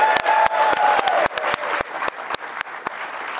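An audience gives another round of applause: loud, continuous crowd clapping, with several sharp, distinct individual claps punching out above the steady roar.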